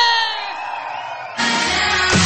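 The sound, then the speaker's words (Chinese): Crowd screaming and cheering at a festive celebration, a dense, loud roar that jumps sharply in volume partway through and stays strong to the end. “所有的朋友，尖叫声再大一点，”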